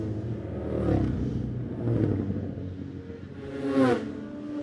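A small two-stroke racing sidecar outfit, number 69, roars past with a buzzing engine note that swells and eases several times, then surges once more toward the end.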